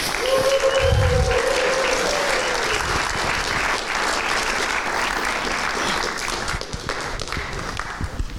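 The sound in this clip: Loud, steady applause from an audience warmly welcoming a pastor to the front. It is sustained evenly from start to finish, with a brief voice near the beginning.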